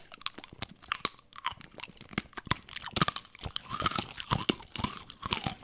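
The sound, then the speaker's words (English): Crunching of a cherry candy cane being chewed: many sharp, brittle crunches in an irregular rhythm, steady and fairly loud, with no talking. “Well, here we go. It's time to try a new candy cane.”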